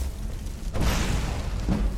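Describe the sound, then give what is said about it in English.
Fire destruction spells blast draugr enemies in a video game. Two deep, whooshing booms land about a second apart, each swelling into a rumbling burst. “Blasting them with fire.”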